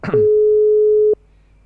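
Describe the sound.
A telephone line tone sounds as a call is placed from a radio studio's office phone: a single steady mid-pitched tone holds for about a second, then gives way to faint line hiss.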